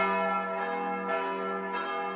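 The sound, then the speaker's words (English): Church bells chiming at St. Thomas Church in Mosul, northern Iraq: sustained, rich metallic ringing that hangs on steadily, with fresh strikes adding brightness a couple of times, loud and alone without voices. “Church bells chime in the city of Mosul in northern Iraq. This is from a video posted online. It shows St. Thomas Church, one of several churches in and around the city.”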